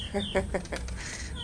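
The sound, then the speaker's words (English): A bird cheeps in a few short, high chirps over steady low background noise. “There's a bird cheeping going that way.”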